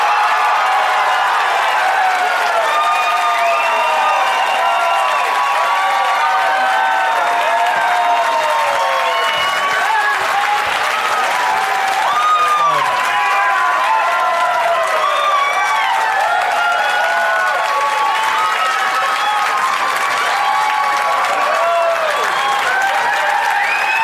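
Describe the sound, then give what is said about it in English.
A studio audience applauds and cheers to welcome three guests, with dense clapping and scattered whoops. It stays loud and steady for the whole stretch without a break. “So please give a big warm welcome to Jason Sklar, Randy Sklar, and Mark Wahlberg.”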